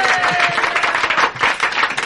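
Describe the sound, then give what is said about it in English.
Audience applause for a guest at a live event with a band, a dense, even patter of many hands clapping that holds steady for the whole stretch. “Let's have a round of applause for Dr. Jennings.”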